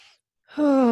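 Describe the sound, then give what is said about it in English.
A deep breath taken during a guided breathing exercise: a brief faint breathy intake, a short silence, then a loud voiced, sighing exhale whose pitch drops slightly. “Nice deep breath.”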